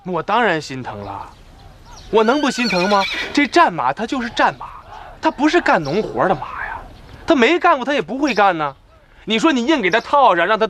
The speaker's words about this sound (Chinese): 我们现在这就剩这几匹好马了